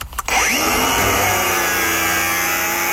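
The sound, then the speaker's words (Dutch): A grinder cutting away a rain pipe. It spins up quickly at the start, then holds a loud, steady, high whine layered with a dense metallic buzz. “Ik denk dat het iets met slijpen te maken heeft. Het wegslijpen van een regenpijp.”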